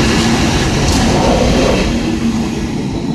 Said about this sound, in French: vous voyez justement maintenant un long train de marchandises avec des voitures qui arrivent. Donc ce sont des trains qui viennent de France et qui vont jusque dans le nord d'Italie. C'est un train qui porte des voitures.